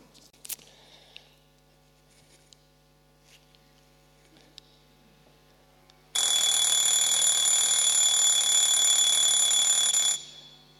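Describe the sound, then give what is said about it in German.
An alarm clock rings in the morning: a loud, shrill, continuous ring bursts out after several seconds of quiet hum and faint clicks, lasts about four seconds, then stops. “Das ist unser Lieblingston, oder? Das ist der Ton, auf den warten wir die ganze Nacht. Und endlich ertönt er und wir dürfen aufstehen.”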